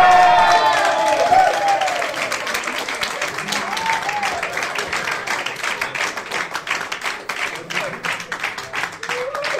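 FDP supporters cheer at an election night event as the forecast is read, with an opening burst of whoops and shouts followed by dense, steady applause.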